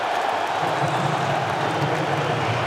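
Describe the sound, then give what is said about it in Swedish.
Football crowd at a World Cup match reacting as Romelu Lukaku comes on as a substitute for Belgium, a steady, dense roar of many voices that holds at an even level throughout, with no single cheer or clap standing out. “Då görs bytet där Romelu Lukaku kommer in i den här matchen. Det är färdigspelat för De Ketelaer i Belgien. Och ni hör på publikens reaktioner.”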